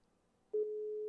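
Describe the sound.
A phone call rings out unanswered: after faint line noise, a single steady mid-pitched ringback tone starts about halfway through and sustains to the end.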